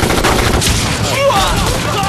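Loud gunfire from a volley of rifle shots fired together on command. The shots run into a dense, continuous crackle with no clear gaps between them.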